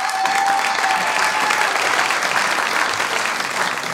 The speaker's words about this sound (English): let's give him another hand and welcome him back to the stage.